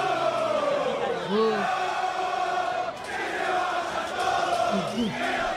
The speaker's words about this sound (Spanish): Si te parece, escuchamos un poquitito a los hinchas de San Lorenzo después del partido con Defensa.